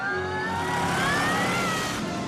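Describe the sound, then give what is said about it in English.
Engines of a truck and a Jaguar car thundering up a road together, a steady loud roar with a whining tone that climbs slightly in pitch. “She's stretched between the two vehicles as they thunder up the road.”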